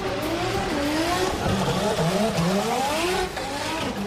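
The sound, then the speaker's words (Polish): Drift cars skidding at Moto Arena Łódź speedway stadium during European Drift Championship practice and qualifying: a loud, continuous engine roar with wavering, rising and falling revs and tire squeal, steady for the whole stretch. “Jutro na trybunach Stadionu Żużlowego zasiądzie 10 tysięcy fanów jazdy w poślizgu. To kolejne eliminacje Mistrzostw Europy w drifcie. Dziś treningi i kwalifikacje.”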